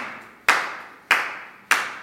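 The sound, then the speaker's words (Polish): Three sharp, bright flamenco palmas, hands clapped percussively and evenly spaced, each strike crisp and identical with a short fading tail, heard alone. “Palmas, czyli klaskanie. Bo to klaskanie nie jest takim normalnym klaskaniem, tylko to jest wykorzystywanie rąk w sposób perkusyjny.”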